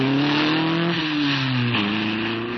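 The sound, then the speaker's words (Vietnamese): A car engine drones loudly and steadily as the car drives off quickly, its pitch dipping slightly and then stepping back up. “Xe chờ kìa, đi cháu, đi mà. Tài xế giọt lẹ đi.”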